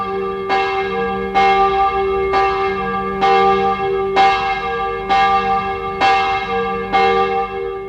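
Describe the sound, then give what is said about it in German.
A church bell rings out in a plague-stricken village at night, struck eight times at a slow, steady pace. Each loud stroke carries a bright metallic overtone that hums on into the next, with no voices. “Ich saß im Pfarrhaus, als die Glocke ertönte”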